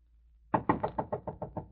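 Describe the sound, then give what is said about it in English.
Knocking on a door: about nine evenly spaced, hollow knocks in a steady quick rhythm after a brief quiet start, growing slightly softer toward the end. “First, I would go up to a door and knock.”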